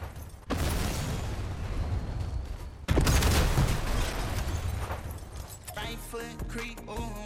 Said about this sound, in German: da wurde irgendwann geschossen.